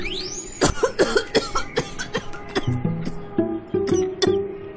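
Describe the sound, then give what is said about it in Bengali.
A woman's violent fit of coughing: many harsh, rasping bursts in quick, irregular succession, fairly loud and without speech. “খ্যাঁক খ্যাঁক করে কাশির দমকাশে মন্দিরার বিচ্ছিরি ভাবে কেশে ফেলে সে।”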